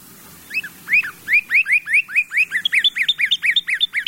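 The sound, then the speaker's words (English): A northern cardinal sings a clear whistled song: a rapid series of bright, slurred whistles repeated many times, with the notes coming faster and higher toward the end, loud and alone. “What we just heard was, of course, the cardinal.”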